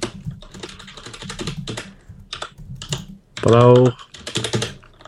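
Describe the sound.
Typing on a computer keyboard while writing a tweet: rapid bursts of light, clattering key clicks with brief pauses between them. A short, loud voiced tone cuts in near the end.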